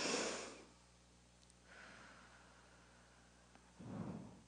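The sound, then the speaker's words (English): A group of people takes one big deep breath together: a breathy rush of inhaled air opens, softer airy noise follows, and a broad, hissing exhale swells and fades at the end. “So before I begin, do me a favor. We're all going to take one big, deep breath. Okay, on the count of three. Ready? One, two, three.”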